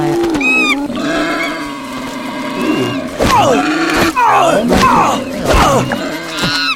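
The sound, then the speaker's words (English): An angry boar in a video game squeals and grunts in a run of harsh, sweeping cries, layered over other game sounds. “Now that boar just got angry at me.”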